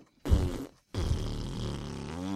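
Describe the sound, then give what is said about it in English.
A fart in two parts: a short, low rumbling burst, then after a brief gap a longer, sustained raspy blast that trails on to the end. “Because the farts that you were making smell bad over here.”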